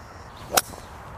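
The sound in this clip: A golf club strikes a ball on an approach shot toward the green into a headwind: one sharp, crisp crack with a quick swish, standing alone against quiet background noise.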